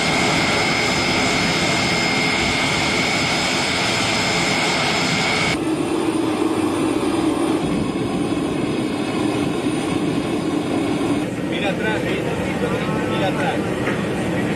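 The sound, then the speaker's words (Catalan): Steady, loud roar of a Spanish Air Force plane's engines while the popemobile is unloaded. A broad, continuous drone shifts in tone partway through and runs unbroken to the end. “Aquest moment és el de la baixada de l'avió del papamòbil, que està traslladat en un avió de l'Exèrcit de l'Aire. Ara ho explicarem. És el so que ens deixava aquest moment del trasllat”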